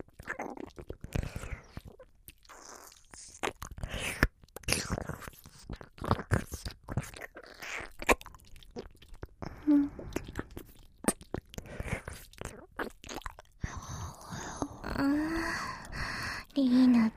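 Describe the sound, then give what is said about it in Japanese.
Wet ear-licking mouth sounds in ASMR: many soft, moist smacks and clicks in an uneven rhythm, faint and close throughout. “首いじりながら耳舐めなんてずるいですね。”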